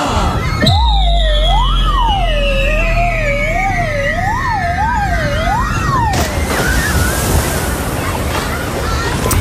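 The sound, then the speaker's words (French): Sliding down a water slide into a pool, staged as a sound effect: a loud warbling whistle-like tone wavers up and down over a low rumble, then gives way to a burst of rushing, splashing noise near the end. “Vous voulez le toboggan ou le plongeoir ? Ah, je vais prendre le toboggan. Allez, accrochez-vous, on vous pousse.”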